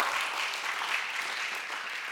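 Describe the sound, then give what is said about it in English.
Audience clapping: a soft, steady wash of many hands applauding, continuous and even in level, with no voices over it. “I think he needs a clap for that.”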